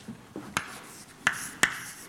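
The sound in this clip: Writing on a board during a physics lecture: soft scratching strokes followed by three sharp clicking taps, spaced unevenly and fairly loud against a quiet background.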